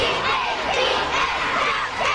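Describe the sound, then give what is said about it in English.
Schoolchildren cheering and shouting together at a schoolyard rally for a hockey team, a dense, continuous, high-pitched crowd roar with no breaks across the short stretch. “The team mascot, Slapshot, helped lead the cheers, and the kids practiced their stick handling between cheers.”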